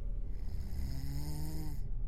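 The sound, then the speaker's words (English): A big man snoring: a loud, rough, rasping snore with a low droning tone that continues unbroken throughout. “seconds later, his snoring returned.”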